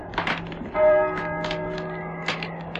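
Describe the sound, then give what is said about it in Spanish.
Church bells of San Juan del Duero toll in a few separate, heavy strikes, each leaving a long, ringing hum of bright overtones that lingers between blows, with no voices present. “¿Oyes? ¿Oyes? Las campanas doblan.”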